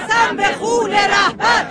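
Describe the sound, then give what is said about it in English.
Tens of thousands at a funeral procession in the streets of Mashhad, Iran, where a crowd of women chants slogans in loud, rhythmic, strained shouted phrases with short pauses between them. “And that is the sound of women chanting”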